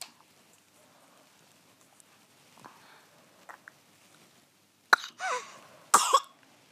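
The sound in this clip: Two loud, harsh coughs during a medical consultation about suspected bronchiolitis break a few seconds of near silence with faint small noises; the second cough is slightly longer than the first.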